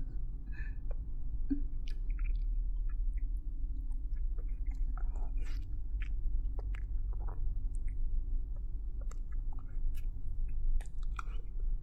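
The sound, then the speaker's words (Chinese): Chewing and eating a chicken cutlet: many soft, squishy bites and small crunches over a steady low hum, with no talking. “这顿鸡排呀，我真是个好宝贝。趁现在呀，能多吃一口就多吃一口。”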